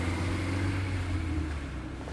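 A car driving away from a ferry terminal, heard as a steady low engine hum with road noise that eases slightly in level toward the end.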